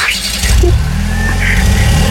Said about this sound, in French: Bon, bah, du coup, je redémarre la voiture, alors bouge pas.